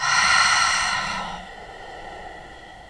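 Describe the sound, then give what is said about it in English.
A deep breath is exhaled with the mouth closed, a breathy rush of air that starts strong and fades over about a second and a half into a quieter, steady breath. “So, take a deep breath in. Exhale.”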